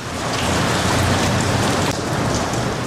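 Pouring rain, a dense and steady loud hiss of heavy downpour that continues without a break, with no voices.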